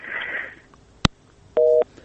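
Telephone busy tone after a call is cut off: a sharp click, then a short, steady electronic tone that stops abruptly.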